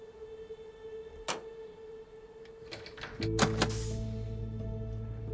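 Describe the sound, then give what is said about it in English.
Faint clicks and a dull thunk as a magnetic key is set into a door lock, followed by a quick cluster of mechanical clicks and a low steady hum that continues. “Ed hobbles over to it and places the magnetic key in place.”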